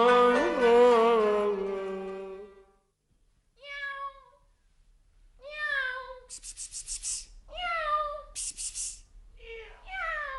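A female cat meows several times: a long drawn-out wavering meow first, then shorter, higher meows after a pause, some in quick succession, moderately loud with brief quiet gaps between calls.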